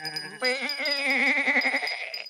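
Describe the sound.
Rams bleat in one loud, drawn-out, quavering call that shifts in pitch partway through and wavers steadily until it fades at the end.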